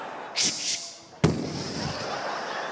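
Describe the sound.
A shotgun being pumped and fired: two brief rasping pump strokes come first, then a single sharp, loud bang that rings out and slowly fades.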